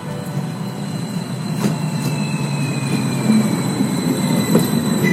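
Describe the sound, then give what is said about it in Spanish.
An electric suburban commuter train runs on an electrified rail line between Toluca and western Mexico City. It makes a steady low rumble with a thin, high whine and faint squealing, and grows slightly louder over time. “El tren interurbano México-Toluca, conocido popularmente como el Insurgente, es un sistema ferroviario suburbano que conecta la zona metropolitana de Toluca con el poniente de la Ciudad de México a través de una vía electrificada”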